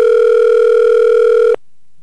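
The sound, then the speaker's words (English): A loud, steady telephone dial tone sounds while dialing into a conference line. It hums at one unbroken pitch for about a second and a half, then stops abruptly into near silence. “absent-minded me forgot to dial into our conference line.”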